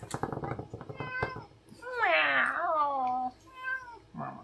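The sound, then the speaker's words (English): A male pet cat meows repeatedly, with a few short calls followed by one long, loud, wavering cry and then a couple of briefer meows, all clear and tonal. “He's always been a good cat.”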